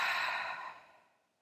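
Slow exhale during a breathing exercise: one soft, airy breath out that starts fairly loud and fades gradually to nothing over about a second and a half, with no voices.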